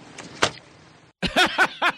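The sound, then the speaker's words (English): A door slamming with a single sharp, heavy thump, followed after a short silent gap by a few brief tonal bursts. “The door slamming. Listen for it.”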